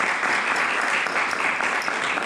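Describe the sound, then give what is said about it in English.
Applause from an audience at a community arts board evening, a dense, steady wash of many hands clapping at once, fairly loud and even throughout with no talk over it. “They get their own applause.”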